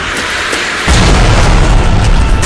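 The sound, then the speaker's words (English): A homemade pipe bomb packed with nails explodes in a brick-lined tunnel, with one sudden loud boom. A heavy, sustained roaring rumble follows as the tunnel collapses, over steady background noise. “JB lit a fuse and dropped a homemade pipe bomb in their wake”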